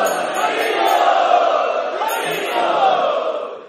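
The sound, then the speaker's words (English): A crowd of devotees chanting loudly in a temple: massed voices in a sustained, swelling drone that holds strongly, dips briefly, then rises again before fading out at the end. “So we would like to welcome all of these special guests by loudly chanting.”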